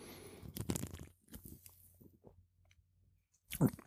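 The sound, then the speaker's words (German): A drinks can is opened with a sharp, hissing crack among a few faint clicks and crunchy handling noises, then one more short burst near the end. “Ihr hört eine Dose. Habe ich aber schon gesagt.”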